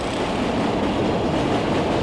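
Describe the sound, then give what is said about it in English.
Loud, steady rumble of a train passing overhead through a busy city street, a dense wash of rolling noise that holds at an even level throughout. “another train just went by overhead.”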